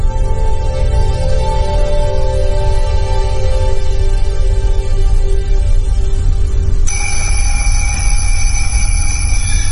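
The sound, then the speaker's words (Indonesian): An alarm clock set for a 3 a.m. night prayer rings with a steady electronic tone over constant loud noise. A second, higher tone joins near the end. “Singkat cerita, alarmku berbunyi.”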